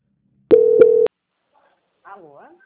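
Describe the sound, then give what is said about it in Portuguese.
A call transfer tone on a telephone line sounds as one short, steady electronic tone with a brief break in the middle. It is followed by silence, and then a voice begins speaking. “fica na linha que eu vou transferir para o nosso auditor”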